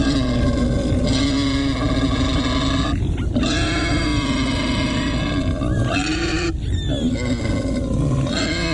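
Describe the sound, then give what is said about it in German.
A wild boar grunts in a continuous series of harsh, low, rumbling grunts and snorts. The sound is loud and rough, with a couple of brief breaks where the grunting changes. “Also zusammenzucken, erstarren, das ist ein Wildschwein.”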